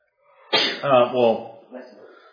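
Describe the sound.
A single sharp sneeze erupts abruptly, its burst trailing off into a brief voiced tail.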